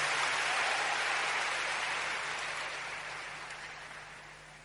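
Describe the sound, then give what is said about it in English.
A church audience applauding: dense, even clapping that starts loud and steadily fades over a few seconds, with no voices. “Give the Lord a big hand and take your seat.”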